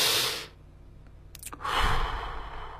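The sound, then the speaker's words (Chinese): Deep breath in and out during a breathing exercise: two airy, hissing breath sounds separated by a brief lull, the second long and rumbling, fairly soft with no talking. “深呼吸，吸要到顶，呼要到底，听见了吗？吸要到顶，深深的”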